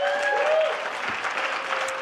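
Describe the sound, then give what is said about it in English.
Steady applause from a church audience welcoming visitors during a morning service, a dense wash of clapping throughout, with faint voices mixed in. “And could you put your hands together and welcome them this morning?”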